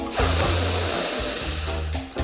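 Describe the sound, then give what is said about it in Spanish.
A long breath drawn in through the nose during a standing breathing exercise meant to swell the ribs, heard as a steady airy hiss lasting about two seconds at a moderate level. “Se puede respirar por la nariz y se hinchan las costillas.”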